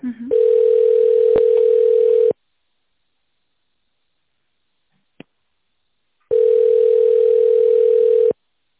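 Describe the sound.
A telephone line tone plays while a call is transferred to a specialist: two long, steady, mid-pitched beeps of about two seconds each, separated by a silent gap with one faint click.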